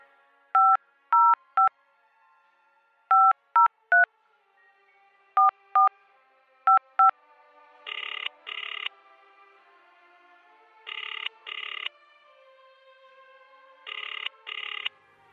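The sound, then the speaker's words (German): Touch-tone keys beep as a phone number is dialed, ten short tones in uneven groups. Three ringing signals follow, each a pair of quick buzzing bursts. “Ja, dann wollen wir mal den Malik anrufen.”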